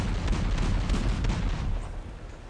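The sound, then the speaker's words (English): A warship fires its weapons in the video game Battlestations: Midway. Dense, booming gunfire blurs into a continuous rumble that eases slightly toward the end. “start firing at it with any weapon systems that are not under your direct control. You can clear a target at any time by pressing the cancel button. Do this now.”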